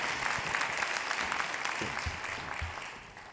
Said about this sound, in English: I told first service, I don't usually get ovation before I even speak. It's pretty cool.